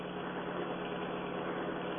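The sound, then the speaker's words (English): Steady car engine drone while driving down a highway, a continuous, even mid-low hum with no changes in pitch or loudness and no talk. “Just keep driving straight down the highway.”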